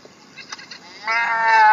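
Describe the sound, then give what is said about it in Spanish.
A sheep bleats once in a loud, sustained, wavering cry. A few faint, short sounds come before the bleat. “¡Oveja!”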